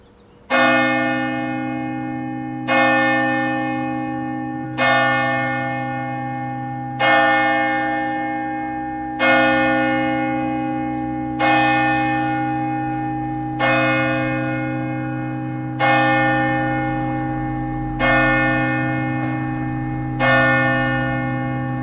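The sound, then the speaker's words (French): A church bell in a French Basque village strikes the hour with ten slow, evenly spaced, resonant strokes. Each stroke rings on and overlaps the next, with no talk. “L'église, elle sonne deux fois l'heure ou une fois? Là, elle vient de sonner, elle va ressonner les coups de 10h ou pas?”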